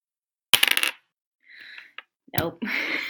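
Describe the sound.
Dice clatter across a table for an attack roll in a tabletop role-playing game, a short sword stab at a goblin: a quick cluster of sharp knocks, followed by softer scuffing noises.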